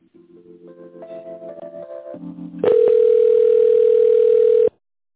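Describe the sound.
Telephone tones play while a call is transferred: a short series of soft stepped electronic tones, then a loud steady tone for about two seconds that cuts off abruptly.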